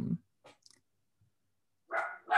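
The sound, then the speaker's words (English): A dog barks, sharp and fairly loud, a couple of times near the end after a low grunt at the start and a long stretch of near silence. “That was Nigel. No, that's Nigel. Jasper doesn't bark.”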